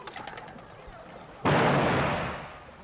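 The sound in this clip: A shotgun fires at a clay pigeon target during skeet shooting: one loud, sharp blast with a broad roar that fades slowly over about a second, after a quieter stretch with faint voices.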